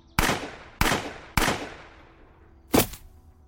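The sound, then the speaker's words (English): Gunshots from a handheld gun: three sharp, loud, evenly spaced cracks, each trailing off in a long ringing decay, followed by another loud burst after a longer gap. “I felt the welcome feeling of the gun recoiling in my hand, the vibrations that sent up my arm. My aim was a bit off, but all three rounds found a home.”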